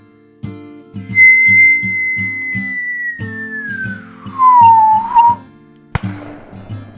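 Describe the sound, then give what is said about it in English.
A whistling tone of a falling boulder that holds steady, then slides gradually downward in pitch, followed by a sharp thud. All of it plays over a steady, rhythmic musical backing. “And when that boulder came a whistling back down,”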